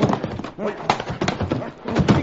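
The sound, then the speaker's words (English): Clip-clop of horses pulling U.S. Army wagons toward the scene: dense, rhythmic hoofbeats and wagon noise, loud and continuous, with voices mixed in. “Here come the army wagons now.”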